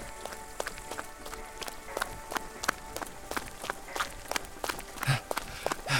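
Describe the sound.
Quick running footsteps pound along in a fast, slightly uneven rhythm, with many sharp, fairly loud impacts following one another with no voices.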